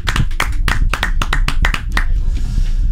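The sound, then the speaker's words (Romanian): Many sharp, overlapping claps from a team applauding in a radio studio, a lively burst of hand-clapping that holds steady before thinning out at the end. “sunt aplauzele sincere. Am pornit microfoanele doar ca să auziți reacțiile echipei de la Zoo în fața artei.”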